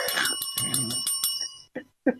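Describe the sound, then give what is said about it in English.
A warning bell dings a few times, its bright, sustained ringing tone running under a speaking voice before cutting off, followed by two short bursts of talk. “Ding, ding. Warning, then, hang on, here's the warning bell.”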